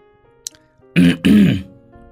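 A plump boy loudly clears his throat in two rough, raspy bursts in quick succession, the second one longer, after a near-quiet lead-in.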